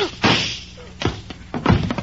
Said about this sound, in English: Jack, you shot him. Sure, I shot him.